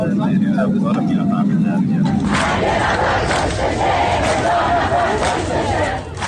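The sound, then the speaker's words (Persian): Striking workers chant protest slogans in a loud, dense crowd roar that grows fuller after a low murmur at the start and keeps up a sustained rhythmic shouting. “اعتصابی همراه با شعارهای اعتراضی.”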